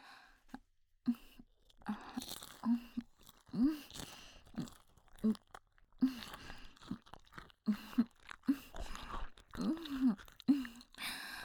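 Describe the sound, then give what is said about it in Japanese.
Crunching and chewing of skull bone being eaten, heard as many wet, crackly bursts with short gaps between them, moderately loud and continuing steadily for about eleven seconds. “あなたの頭のてっぺんの骨もいただけてるわよ。はい、これが最後の一口。”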